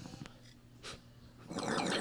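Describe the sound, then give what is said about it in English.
Someone inhales from a bubbling bong: a few faint breathy puffs come first, then a dense gurgling bubble sound over the last half second. “And that there, guys, is how you properly hit the bong.”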